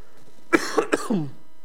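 Throat clearing comes in four short, raspy bursts in quick succession, moderately loud, with the last one drawn out into a low rumble and no speech around it.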